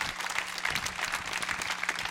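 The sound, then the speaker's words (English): Sustained applause from an audience at a gathering honouring mothers: dense, steady clapping that fills the whole stretch at an even level, with no voices rising above it. “Can we give a clap for all the ladies in the house?”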